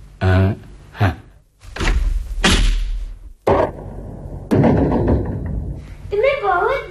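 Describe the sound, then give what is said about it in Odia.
A door chain is unlatched and a door pulled open: a few knocks, thuds and clunks, then a longer stretch of rattling, scraping noise at a fairly steady level. “କବାଟରେ ଶିକୁଳି ଲଗା ଯାଇଛି। ମୁଁ ଶିକୁଳି ଖୋଲିଦେବି”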